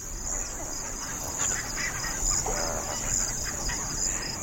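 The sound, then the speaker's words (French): Night ambience at the edge of a pond, where a steady high-pitched insect drone runs throughout over scattered bird calls and a faint low rumble. “Donc là, effectivement, on entend beaucoup d'animaux, des oiseaux, une sorte de grondement aussi un petit peu en arrière. Il y a sans doute des amphibiens.”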